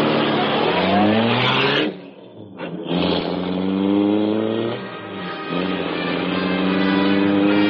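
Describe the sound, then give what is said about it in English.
A powerful car engine roars to life and speeds away, a loud, sustained growling drone that dips briefly before surging back to full strength. “The great car roared into life. A section of the wall in front raised automatically, then closed as the gleaming Black Beauty sped into the darkness.”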